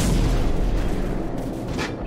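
AC-130 gunship cannon fire and explosions from the video game Call of Duty 4, a dense, loud barrage of deep booms and rumbling blasts running continuously throughout.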